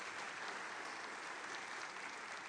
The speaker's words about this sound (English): Let's give her a warm welcome tonight as she comes.